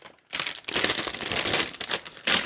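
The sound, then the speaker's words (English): Paper crinkles as a card is opened: after a brief hush comes loud, dense rustling and crackling that runs on, dips briefly, then returns in a final sharp burst. “you gotta open a card first”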